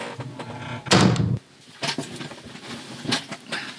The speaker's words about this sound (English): I'll just move and close the door.